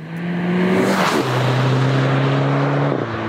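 A sixth-generation Volkswagen GTI engine drones loudly and steadily, its pitch dropping once early on and then holding level to the end.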